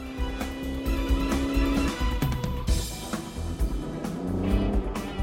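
A car engine revs and accelerates to catch up with a woman driving ahead, a sound effect in an audio drama: a steady motor hum that shifts into a surging, rushing roar.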